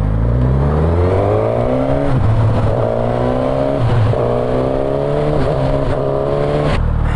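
A motorcycle with a quick shifter accelerates hard, its loud engine note climbing steadily and then dropping sharply at each of several gear changes. The rising and falling pattern repeats throughout, with no talking.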